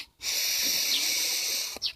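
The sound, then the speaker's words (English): A deep breath drawn in during a guided breathing exercise: one long, steady, breathy hiss of about a second and a half, followed by a brief short puff of air at the end. “just take a deep breath in”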